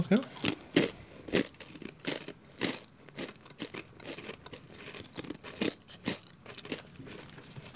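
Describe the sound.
Crisp crunching and chewing of cheddar crackers bought at Walmart, with many brittle bites and munches at an uneven pace, fairly faint, with a voice speaking now and then.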